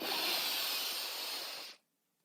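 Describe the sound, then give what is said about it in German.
A deep breath drawn in through the nose during a relaxation exercise, a steady airy rush lasting nearly two seconds before it stops abruptly into silence. “atme einmal ganz tief durch die Nase ein”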